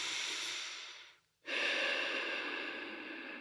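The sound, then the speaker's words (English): A person breathes in with a long, soft, airy hiss, pauses briefly, then breathes out in an equally long, steady hiss, quiet and with no talk. “and we are breathing in,”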